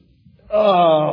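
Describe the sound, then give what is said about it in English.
Someone groans while bending over: one loud, drawn-out vocal moan that starts abruptly after near silence and holds steady for about half a second. “that noise is me bending over.”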